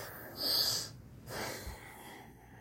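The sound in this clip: A deep breath during a guided breathwork exercise: a sharp, hissing inhale followed by a softer, breathy exhale, quiet and with no talk.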